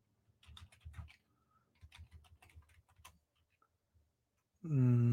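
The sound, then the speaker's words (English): Typing on a computer keyboard, heard as soft, quick clicks in short bursts with brief pauses, then a loud harmonic sound cuts in at the end. “Oh, you gotta type that in though.”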